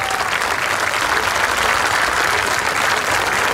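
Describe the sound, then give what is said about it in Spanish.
Warm applause from a church audience welcoming a woman back into the faith: a steady, unbroken wash of clapping at constant loudness, with no talking over it. “Un fuerte aplauso para esta hermana, póngase el pie.”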